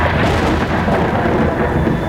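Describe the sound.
Thunder from an approaching storm rolls as a loud, dense, steady rumble with a broad hissing roar and no distinct cracks, continuing unbroken throughout.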